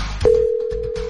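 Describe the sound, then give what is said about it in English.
A telephone rings on an outgoing radio call: after a brief click, a single steady low ringing tone starts and holds unbroken to the end. “Let's make a phone call.”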